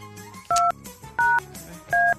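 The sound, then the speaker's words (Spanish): Three telephone keypad tones as a number is dialled, each a steady dual-pitch beep of about a fifth of a second, evenly spaced over a faint background hum. “Vamos a ver, le voy a marcar a alguien a ver si nos contesta.”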